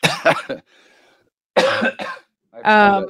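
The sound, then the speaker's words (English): Someone still getting over an illness clears their throat close into a microphone. Two harsh, rasping bursts are separated by a brief quiet stretch, and a voiced sound follows at the end. “I just cleared my throat into the mic. I didn't realize that.”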